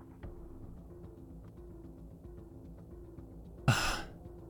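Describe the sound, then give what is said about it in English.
A man catching his breath: a mostly quiet stretch over a faint steady background, broken near the end by one sharp, loud gasping breath that trails off. “Give me a sec. He, like, catches his breath.”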